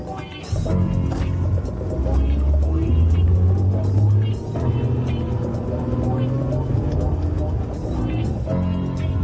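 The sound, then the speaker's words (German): A car engine drones steadily as the vehicle rolls out of a driveway and drives off, a continuous low hum running the whole time with a layer of sustained tones above it. “Jetzt rollt er aus der Einfahrt. Er fährt nach Osten. Hinterher.”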